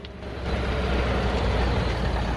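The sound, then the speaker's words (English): Jammed traffic of cars and trucks at a checkpoint, with a red pickup truck slowing in the queue, forms a loud, dense, steady low rumble of engines with no breaks. “Their truck slows down at traffic at the checkpoint.”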